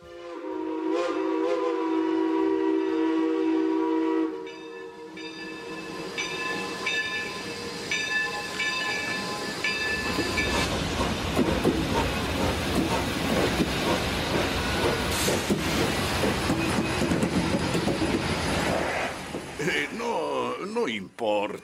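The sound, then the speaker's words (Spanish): A train pulls away from a station, opening with sustained whistle-like tones and hiss before a dense, loud rumbling clatter takes over and continues steadily to the end. “Cogí mi tren por los pelos, pues ya empezaba a ponerse en marcha.”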